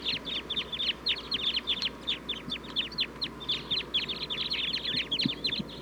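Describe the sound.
A flock of wild sitkensis-type birds calls in the trees. Many rapid, high, overlapping chirps continue steadily through the whole clip with no voices.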